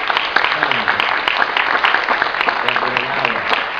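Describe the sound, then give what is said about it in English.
Applause for a church audience: a crowd claps in a dense, continuous patter at an even, fairly loud level, with faint voices murmuring underneath. “can we give a big round of applause for the congregation?”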